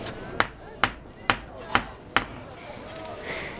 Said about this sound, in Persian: این پتکا میبینی؟ شاید 100 بار نه نه 1000 بار اینو با آهن کوبیدم.